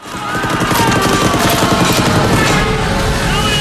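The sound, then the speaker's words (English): Stuka dive bomber strafing soldiers in a boat with gunfire in a war film, a loud sustained roar that swells in and keeps going with rapid crackling fire through it. “Vasily crouches at the bottom of the craft with the other soldiers as another Stuka dive bombs, spraying them with bullets.”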